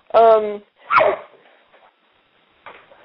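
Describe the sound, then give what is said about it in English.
A pet dog barks twice in loud, quick succession, each bark short and tonal, followed by a few faint, scattered sounds before a brief quieter noise near the end. “That was my dog again”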